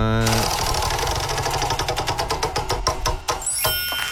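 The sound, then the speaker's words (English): A prize wheel spins with a steady run of ratcheting clicks that grow farther apart as it slows toward a stop. A voice is heard briefly at the start. “We need to spin the wheel to find out what game we're playing today. You got the wheel? Let's spin it.”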